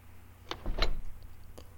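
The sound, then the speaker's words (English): A door being locked gives a few faint, sharp clicks and a brief mechanical rattle, spaced over less than two seconds against a quiet background. “Just let me lock the door so no one can interrupt us.”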